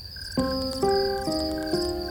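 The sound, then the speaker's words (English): A mass of crickets chirps in a dense, steady high trill, with regular pulses of chirping about every half-second, alone and fairly faint. “One obvious possibility is that the device could have been a mass of crickets. But the sound of mere insects can't reduce the CIA's finest to physical wrecks, can it?”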